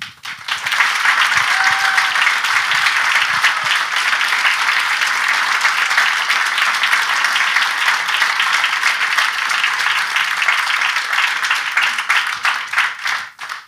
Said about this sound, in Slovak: Ľudia tlieskajú, ale oni sú to väčšinou vaši fanúšikovia, čiže ja sa nenechám tým úplne zmýliť.